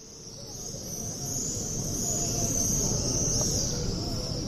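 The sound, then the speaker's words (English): Shrill, continuous high chirring of swifts returning to nest near the Western Wall in Jerusalem, a steady bright twittering over a low background rumble that grows slightly louder as it goes on. “Swifts returning to nest near the western wall.”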